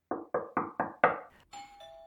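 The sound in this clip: A doorbell rings at a front door with five quick, bright chiming strikes in a row, followed by a steadier held tone that rings on alone.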